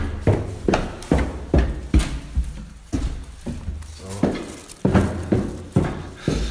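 Footsteps of someone in clacky hard-soled shoes walking down an apartment stairwell while carrying a rubbish bag, many sharp heel clicks in a steady, even rhythm.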